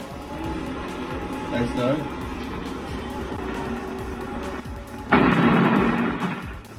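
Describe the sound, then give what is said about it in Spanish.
A fragmentation grenade explodes in an attack on a safe house in Comalapa, Chiapas: after several seconds of murky background noise and voices, one sudden loud blast erupts and slowly decays. “lanzaron una granada de fragmentación hacia una casa de seguridad presuntamente perteneciente a la organización Maíz en el barrio nuevo de Comalapa, Chiapas. Tras el ataque, los agresores huyeron rápidamente de la zona. Aquí el audio del momento del ataque.”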